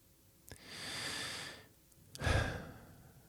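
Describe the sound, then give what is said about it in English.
A deep breath drawn in through the nose, then let out through the mouth: a long, airy inhale followed by a louder, shorter sighing exhale, with no talking. “noticed I breathed. always breathe first, just in through the nose for 4 seconds, out through the mouth, just nice big breath.”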